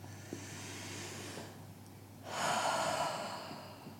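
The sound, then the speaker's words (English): A slow, deep breath during a calm meditation exercise, with a soft airy breath followed after a short pause by a longer, louder, rushing breath, and no talking. “Take a deep breath.”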